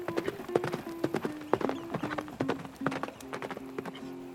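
Horse hooves clip-clop in a quick, steady rhythm as a rider rides off, with many sharp beats throughout and a faint tonal hum beneath.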